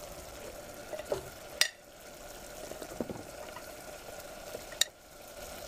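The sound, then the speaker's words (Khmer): Quiet, steady sizzle of hard vegetables stir-frying in a pan, broken by a few sharp clinks and scrapes. “យើងអាចបង់បន្លែចូលបន្តបន្តនេះខ្ញុំដាក់បន្លែរឹងមុន”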